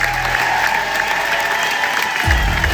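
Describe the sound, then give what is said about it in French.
Sustained audience applause fills the hall at the end of a stage show as the actors, a singer and actor among them, take their bow. The dense clapping holds steady, with a low rumble beneath it that swells near the end. “les applaudissements sont particulièrement nourris. Main sur le cœur, le chanteur et comédien semble ému par tant de soutien.”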